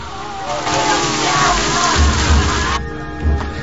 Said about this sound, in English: A rain shower has lifted the men's spirits, and they're on the deck, washing themselves and throwing water over each other.